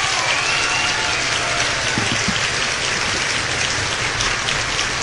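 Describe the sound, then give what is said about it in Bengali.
Audience clapping at a live show: a loud, steady, dense patter of many hands that continues unbroken for several seconds. “ও হো হো হো হো, শুধু কি হাততালি?”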